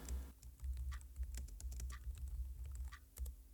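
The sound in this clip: Someone typing an email on a computer keyboard: faint, irregular clicking keystrokes in quick bursts over a low, steady background hum.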